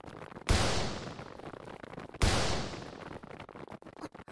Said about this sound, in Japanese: 狙撃手か。いや、今のは長州に向かって放たれていた。